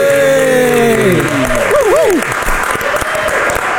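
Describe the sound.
A talk show audience cheers and applauds a musician guest. Shouted voices rise over the crowd early on, then thick, sustained clapping continues at a steady level.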